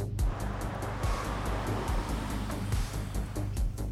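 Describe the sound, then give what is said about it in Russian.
A dark BMW car drives up, its engine and tyres giving a steady, fairly loud rumble with a deep low hum and broad road noise running through the whole stretch. “Подъезжает темный БМВ.”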